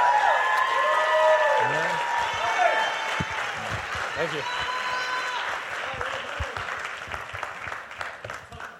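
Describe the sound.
Applause from a church audience welcoming a guest speaker to the pulpit at a morning service: sustained, dense clapping that holds steady and eases slightly toward the end.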